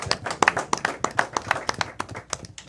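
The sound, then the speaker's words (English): Hands clapping in applause, many quick, sharp claps in a fairly steady rhythm, crisp and moderately loud for nearly three seconds. “Put your hands together, lady.”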